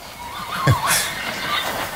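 A horse being walked on a leash lets out one short whinny, a wavering cry that rises and fades within about half a second over a low, steady background.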